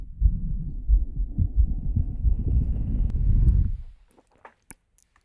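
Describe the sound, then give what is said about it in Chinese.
A heartbeat throbs in a dense, low, rhythmic pulse that holds steady, then stops abruptly, leaving silence broken by a few faint clicks. “心跳也听了这么久了”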